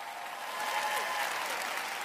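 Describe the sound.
A church audience at Lakewood applauds to welcome a guest speaker: steady, dense clapping that swells slightly after the first moments and holds evenly, with no talking over it.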